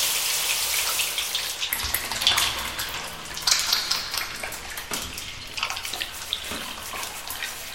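Water running and splashing as soap is rinsed off, a steady hiss broken by irregular splashes and drips throughout, with no talk.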